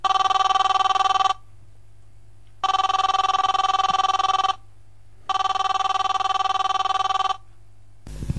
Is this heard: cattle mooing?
no